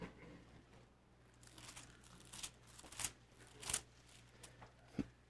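Bible pages rustle as they are turned to Hebrews chapter 5, a faint papery crinkling and fluttering punctuated by a few sharper flicks.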